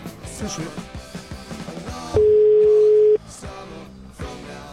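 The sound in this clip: A telephone ringback tone sounds for an unanswered call as a single steady, mid-pitched beep lasting about a second, with people talking before and after it.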